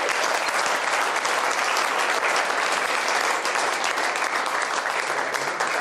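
An audience-style audience gives a big welcoming round of applause to open day visitors, a thick, continuous wash of clapping that stays loud and steady for about six seconds.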